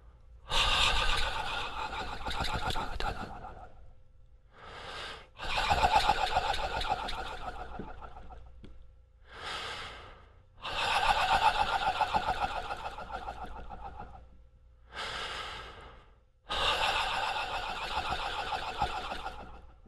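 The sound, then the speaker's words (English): Breathy, voiceless exhalations and inhalations with a shaky, fluttering texture as a relaxed jaw is shaken during a vocal warm-up, with no voice. Several long airy bursts are separated by short pauses. “At first, you should do this jaw shaking without sound. Just do it with breath. So I'm going to make my breath more audible so that you can hear it”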